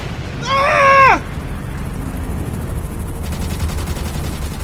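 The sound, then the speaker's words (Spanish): Gunfire in a library scene: one brief whining, tonal burst of about a second whose pitch drops sharply at its end, heard alone over a low steady hiss. “¡Ah! ¡Nos disparan! ¡Cúbrete!”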